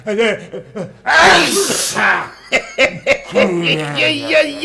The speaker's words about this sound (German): Du niest mir ja das Krokodil von der Decke.